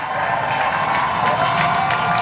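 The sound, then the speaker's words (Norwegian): Cheering and applause from a crowd greeting a new British prime minister on his arrival at Downing Street: a dense, steady roar of clapping and cheers that holds at an even, fairly loud level throughout. “blir tatt veldig godt imot med jubel.”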